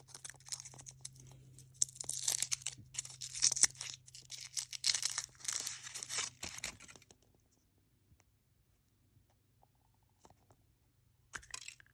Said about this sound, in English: This is a kinda surprise egg. It is wrapped in foil.